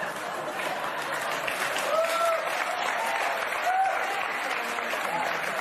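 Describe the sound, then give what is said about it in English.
Audience applause, dense and steady, holding at a fairly loud level for the whole stretch with a low crowd murmur running beneath the clapping. “the oohs, ahs, and applause from the audience makes my stomach sick.”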